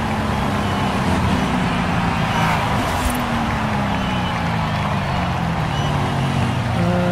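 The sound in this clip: A car drives along a road, giving a steady, unbroken wash of road noise over a low engine hum that holds at an even level throughout.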